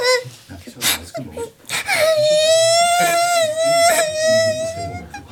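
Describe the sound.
A person breaks into loud, drawn-out wailing sobs that hold a steady, high, strained tone with a few breaks for breath.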